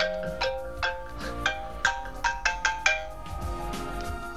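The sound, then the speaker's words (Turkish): A phone ringtone sounds as a friend calls, playing a bright, repeating melody of short chiming notes at a steady pulse that then gives way to lower, softer tones. “Arkadaşım bu sırada arıyor.”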